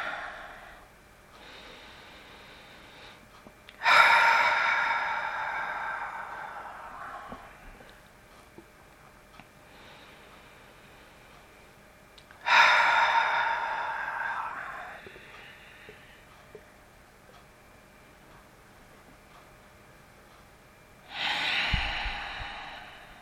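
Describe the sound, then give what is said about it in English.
Long, slow, deep breaths taken to center oneself before a guided prayer, three soft airy swells, each fading out slowly, separated by long quiet pauses. “we're going to begin by just taking some long, slow, deep breaths in order to center ourselves.”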